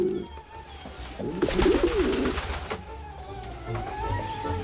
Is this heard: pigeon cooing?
yes